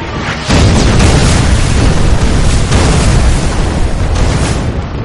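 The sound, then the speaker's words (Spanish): Heavy explosions from a war film battle as North Korean coastal guns bombard NATO ships and advance boats. A loud, dense roar of overlapping blasts bursts in after a brief quieter opening and stays powerful throughout. “Desde la costa, los norcoreanos lanzan bombas contra los buques de la OTAN y las avanzadillas.”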